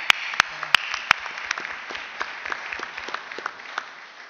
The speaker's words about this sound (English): Um, can we give it up for Peter?